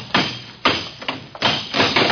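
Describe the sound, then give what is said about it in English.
A lock is smashed with several heavy, irregularly spaced thudding blows, some loud and some lighter, in quick succession, with no voices. “Smash that lock.”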